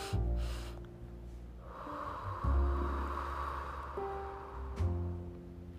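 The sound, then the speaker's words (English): Deep breathing from a relaxation exercise for anxiety and stress: a person takes deep inhales through the nose, then lets out a long, soft, breathy exhale, all fairly quiet. “take 2 deep inhales, back to back through your nose, like this. And then exhale.”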